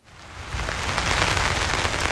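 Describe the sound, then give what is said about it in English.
Heavy rain pours down steadily at the scene of a bridge collapse after a cargo ship struck a supporting pier, a dense, continuous hiss of drops that swells slightly in the first half second and then holds loud and even. “The rain seemed unrelenting, pouring down on search crews hour after hour.”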